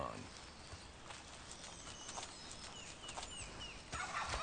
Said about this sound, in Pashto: د امریکا ویار ځنګلي فیل مرغان د دې پارک ایګانو په شان، دوی هم هر څه خوري، هم واښه دانې، هم اشرې او هم کوچني ژوي خوري.